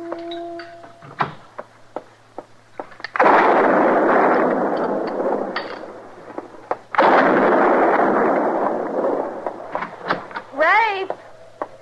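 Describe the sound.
Two loud gunshots blast out beside a barn in a Western drama. Each is followed by a long rolling echo that fades over a few seconds, with a few brief sharp sounds before them.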